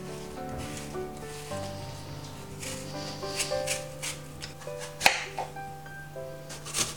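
Two apples being peeled for cooking after coring, heard as soft repeated scraping and rubbing strokes under steady background music with sustained tones.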